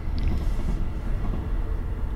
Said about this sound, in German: Nachdem der Zug durch ist, wir haben das Fenster offen, ist doch noch ein bisschen warm.